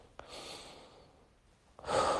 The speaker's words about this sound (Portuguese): Respira devagar.